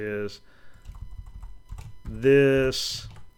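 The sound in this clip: Soft clicks of typing on a computer keyboard, during a programming demonstration on character encoding, tap faintly between stretches of a person talking.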